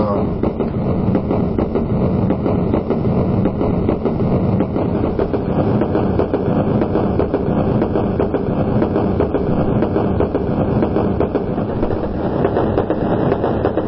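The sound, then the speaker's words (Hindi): A train running on rails between Nadiad and Dakor: a loud, steady rumble carrying a rapid, uneven clatter of wheels the whole way through. “गाड़ी चली भजिए लिए और अंदर खा रहे हैं खाने वाला खा रहा है रेल चलाने वाला चला रहा है सुनाई पड़ रहा है रेल का आवाज”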